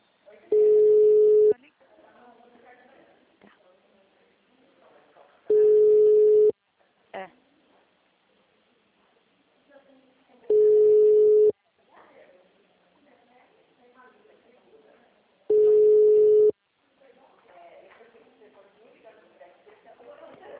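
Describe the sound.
Telephone call tones sound while a call is being placed: four long, steady single-pitch tones at even intervals, separated by gaps of faint background noise.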